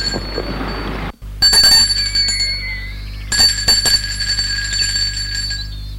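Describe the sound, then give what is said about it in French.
A small bell on a garden gate rings after a sliding bell-pull is tugged, giving two loud bursts of bright, metallic jingling separated by a short pause, with no voices. “il va vers le portail, tire le coulisseau lyonnais, une clochette retentit.”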